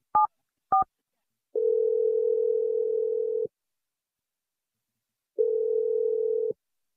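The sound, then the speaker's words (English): Two short touch-tone beeps sound as a phone number is dialed, then two long, steady telephone tones follow with a pause between them. “I'm going to dial his number. We'll see what he has to say.”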